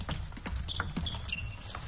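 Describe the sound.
A table tennis ball ticks through a serve and rally in a professional match between Chinese and Japanese players: several quick, sharp, faint clicks at irregular spacing over a low background.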